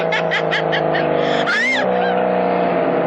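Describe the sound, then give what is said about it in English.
A car driving fast: a steady, loud engine drone runs the whole time, with a brief, sharper swell in the middle. “Don't drive so fast, George”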